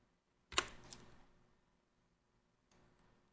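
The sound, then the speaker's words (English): A few faint clicks of computer-keyboard keys as someone types an expression into video-editing software, with a sharp initial burst that quickly fades, then a later soft patch of noise. “And what we're going to do is we're going to Alt-click on the position. And we're going to type value plus”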